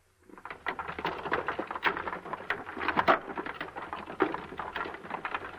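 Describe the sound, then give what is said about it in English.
A radio sound effect of wagon wheels rolling over a country road, made with two stationary wheels on an axle pressed against a motor-turned container of gravel. It produces a steady, dense, crunching rattle of many small clicks. “On the radio serial, The O'Neills, this past week, the sound of wagon wheels going over a country road was used. It sounds like this.”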